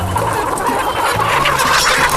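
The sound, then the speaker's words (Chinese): Chickens cluck steadily and densely throughout, many overlapping calls from a flock with a rooster among the birds, loud and continuous with no talking. “不，公鸡还是不要挑衅它了，公鸡太凶了，公鸡要咬人。”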